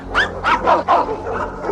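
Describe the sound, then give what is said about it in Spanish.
A dog barks as helpers take it out of a cage inside a warehouse. It gives a quick, loud run of several sharp, yelping barks. “Dentro, los ayudantes sacan al chucho de la jaula. ¡Abre! Beethoven ladra.”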